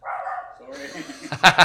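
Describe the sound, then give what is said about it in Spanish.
Dog barking inside a classroom: two sharp, loud barks come close together near the end, after a stretch of a person talking. “Ay, se nos coló un perro aquí a la clase.”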